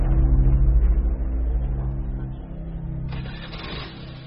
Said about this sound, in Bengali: অন্ধকার নেমে এসেছে, আস্তে আস্তে চালাচ্ছেন স্কুটার